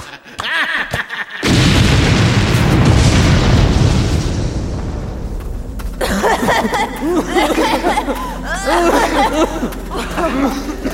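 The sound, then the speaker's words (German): A loud explosion blasts a mine shaft shut: a sudden heavy boom, then a long, roaring rumble that slowly fades. Excited voices then speak over the dying noise. “Er hat den Schacht gesprengt. Verschüttet.”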